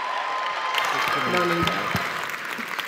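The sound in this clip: Audience applause welcomes a speaker to the stage at a morning gathering, a steady, dense wash of clapping that holds evenly throughout.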